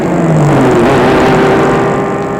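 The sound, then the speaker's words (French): A black car speeds out of a street at full throttle: a loud, continuous engine roar whose tone climbs steadily in pitch as it accelerates, heard alone without voices. “Tout à coup, une voiture noire débouche de la rue à fond de train.”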